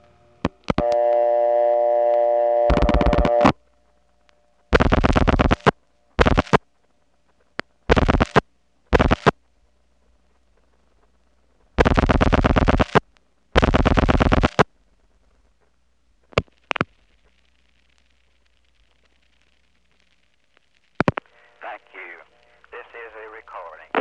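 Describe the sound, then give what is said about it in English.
Telephone switching sounds: an ESS cut-through, then a crossbar No. 5 line-link pulsing into a PBX. A steady tone gives way to several harsh, buzzy bursts separated by silences, a long quiet gap, then a few brief clicks and tones. “which is the ESS cut-through followed by the crossbar 5 picking up the line link pulsing arrangement. Then there's a silence while the 4 digits are dialed out, and then finally, ta-tick, it goes into the PBX.”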